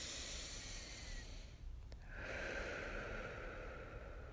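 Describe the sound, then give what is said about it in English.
A slow, deep breath drawn in and then let out, heard as a soft, airy hiss with a brief dip between inhale and exhale, faint and alone with no speech. “Close your eyes. Take this deep breath with me. Once more.”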